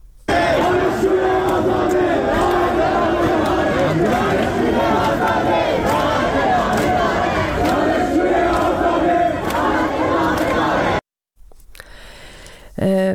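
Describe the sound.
Students at Khajeh Nasir University in Tehran chant together at a protest gathering. The loud, sustained massed voices hold a steady rhythmic cadence, then cut off abruptly before a brief, different sound at the very end.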